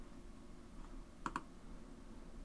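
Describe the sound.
Mouse clicks on a setup button, faint and sharp: a quick pair of clicks followed by one more click a moment later, over a soft steady hiss.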